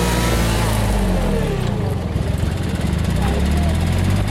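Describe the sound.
A plate compactor tamping soil during trail construction gives a loud, steady engine drone with rapid low vibrating thumps that run continuously without a break.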